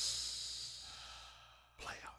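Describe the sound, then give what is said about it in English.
A deep breath: a long, soft, hissing inhale that fades gradually, followed by a brief, sharper breathy exhale near the end. “I want everybody to take a deep breath right now and say, you just say playoff.”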